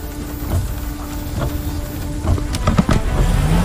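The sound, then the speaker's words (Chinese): The engine and road noise of an older car driving downhill while the driver gives it throttle. A steady low rumble runs throughout, with a few brief clicks and knocks near the end. “师傅，你下坡，你加什么油啊？”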